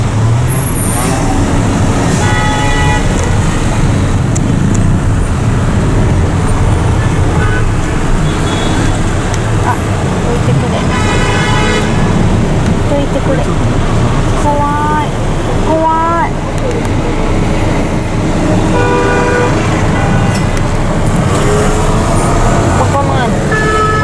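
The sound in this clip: Dense road traffic circling the Arc de Triomphe in Paris, a loud, steady roar of cars, trucks and buses with brief tonal honks and a murmur of voices throughout.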